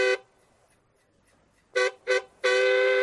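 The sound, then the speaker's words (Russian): A truck horn is pressed four times: a short loud blast, a long pause, two quick honks close together, then a sustained blare that holds to the end, each a bright, steady tone. “Нажимая автомобильный сигнал”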